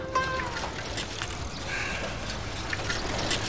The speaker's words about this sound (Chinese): 哥，我现在洗手。